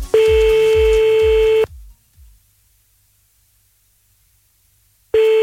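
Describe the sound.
A steady electronic telephone tone with a few low thumps plays as the caller rings back. It cuts off abruptly into silence, then returns loudly at the very end.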